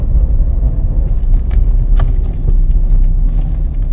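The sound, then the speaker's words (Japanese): A car drives fast along a riverside road beside the Asano River, heading upstream. Its steady low rumble of engine and tyre noise stays loud and continuous throughout, with no voices. “浅野川の川沿いを、上流方面へ 向かって、車を飛ばしております。”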